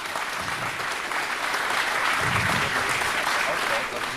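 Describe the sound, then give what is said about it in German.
Audience applauding loudly: dense, even clapping fills the whole stretch, with voices faintly talking beneath the noise. “Ich verstehe dich gerade nicht, die Leute applaudieren zu laut.”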